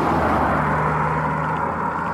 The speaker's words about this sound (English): Car's going past again.